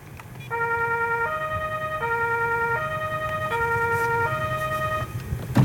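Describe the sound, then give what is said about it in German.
An emergency vehicle's siren, switched on from inside the vehicle with a button on a keypad along with its blue lights, sounds a loud two-tone wail that alternates steadily between a higher and a lower pitch for the whole stretch. “da können wir mit einem Knopf schalten einfach Blaulicht und Horn an. Das werde ich jetzt mal machen.”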